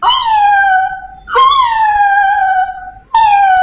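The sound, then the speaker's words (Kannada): A person imitates a cat's meow with three drawn-out, high, falling meows, loud and alone, the last one cut short. “ಅಂತ ಈ ತರ ಬೆಕ್ಕ ಶಬ್ದ ಮಾಡಿ ಕೂಗ್ತಾ ಇತ್ತು.”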